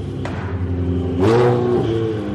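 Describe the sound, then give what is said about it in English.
A race car engine revs at the Mugello circuit in Tuscany on a training day, a droning mid-pitched roar that swells and climbs in pitch midway through, then settles back to a steady growl. “I'm at the Mugello Racing Track in Tuscany, just outside Florence. It's training day for a tall pilot with a blonde braid.”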